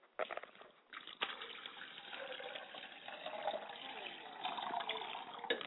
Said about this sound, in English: I must wash my hands and face because I cannot enter into a communion with my ancestors with a stale face.